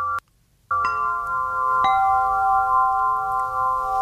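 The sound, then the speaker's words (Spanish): A samafón, a ringing sound-healing instrument, sounds after a brief silence: a sustained metallic tone with several steady bright overtones rings on, and a second light strike about a second later adds a short shimmer. “Este es el samafón, escucha.”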